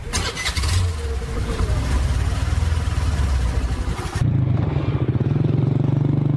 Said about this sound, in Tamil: வண்டியை ஸ்டார்ட் பண்ணட்டுமா?